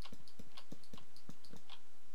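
Computer mouse clicking during Minecraft gameplay: a rapid, fairly even series of sharp, quiet clicks, roughly four per second, with no talk.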